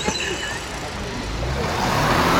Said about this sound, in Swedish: Jag har en liten bil och det här är ett hinder som ska hindra bilar. Och nu backar hon bort.